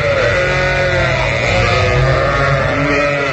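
Sheep bleat in a stock recording, a loud and steady chorus of overlapping, wavering cries that fills the whole clip with no pauses or other sounds.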